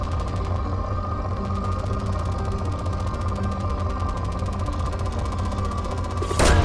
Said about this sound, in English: Launching probe.